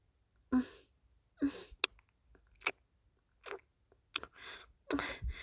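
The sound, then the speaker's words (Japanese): Wet mouth licking sounds come as a quiet, irregular series of short smacking, slurping bursts separated by silences, with no talk. “口でなめなめしたら気持ちいいのかな。じゃあ、いただきます。”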